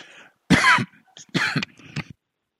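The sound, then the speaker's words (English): Three coughs from a man who has just choked, loud and harsh, standing alone without talk, the first the longest and the last the shortest. “Excuse me. Choked myself.”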